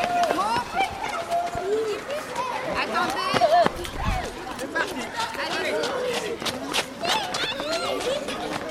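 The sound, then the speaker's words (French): Schoolchildren from two primary classes run at a stadium in a charity run against disease, their footsteps mixing with constant high-pitched chatter, shouts and calls from the young runners. “Les élèves sont partis courir.”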